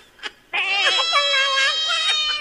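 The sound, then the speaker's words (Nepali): A person imitates a cat with one long, drawn-out meow that wavers in pitch, loud and alone after a brief faint sound at the start. “ए भगवान्, के हो नि बिराला चाउरा छाउरी बोकेर आउनु भएको तपाईँ?”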